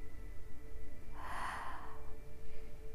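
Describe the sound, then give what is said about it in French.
A single deep breath drawn in through the mouth during a relaxation exercise, a breathy rush of air lasting about a second, alone over a quiet low background hum. “je vous invite à prendre une grande inspiration par la bouche.”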